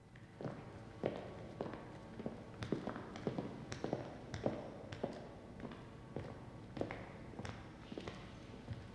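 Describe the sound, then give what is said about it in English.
Barefoot footsteps pad along a prison corridor, many soft, evenly paced steps sounding in a steady walking rhythm over faint background noise. “He ignores a prisoner watching from his cell as he pads along barefoot.”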